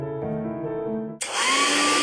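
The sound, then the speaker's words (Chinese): A hair dryer switching on, used by a woman drying her hair: a brief low humming tone, then a sudden loud rush of blowing air with a high whine that continues steadily. “每次吹完头发又毛又斑，真闹心。 老婆，这是你吹风机没选对，快试试我给你新买的戴森吹风机”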